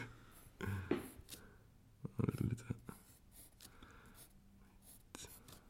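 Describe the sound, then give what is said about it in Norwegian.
Pen scratching out a single word on paper, with faint, uneven strokes and short scraping bursts, quiet throughout. “Skriv det, så ser vi hvordan det ser ut.”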